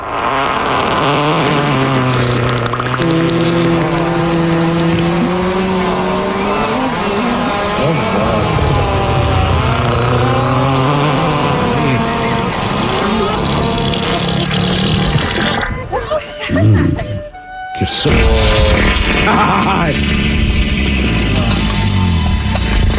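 Farting sounds form a long, loud, buzzing stretch with wavering, sliding pitch that runs almost unbroken. A short break after the middle is followed by a strong return to the end.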